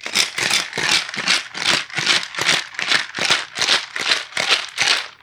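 Cocktail shaker rattling hard while a gin drink is mixed, many quick rhythmic shakes in an even, steady pattern of bright, clattering bursts with no talk over them.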